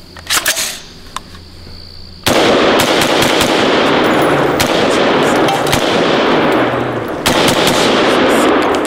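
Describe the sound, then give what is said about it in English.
Rapid rifle fire inside a movie theater: a few sharp separate reports, then a long stretch of harsh, continuous loud noise packed with many shots that runs to the end. “This was him shooting this thing. This is what it sounded like in the theater.”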